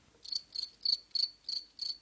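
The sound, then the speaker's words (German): Six evenly spaced, high-pitched cricket chirps, each a short buzzy trill, sound faintly on their own against near silence. “Ich hab hier nur ein bisschen Pause gelassen, damit ich da das Grillenzirpen einsetzen kann.”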